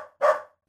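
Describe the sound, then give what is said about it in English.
A single dog bark, one short, loud, full-bodied woof that stands alone with silence after it. “Also, it was a dog.”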